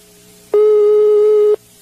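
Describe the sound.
Telephone busy tone after a dropped call: one loud, steady, buzzy tone lasting about a second, with a low hum before and after it.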